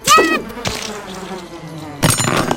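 Bees buzzing in a video game: a droning, insect-like buzz with a brighter, louder burst at the start, a softer steady hum through the middle, and another loud buzzing burst near the end.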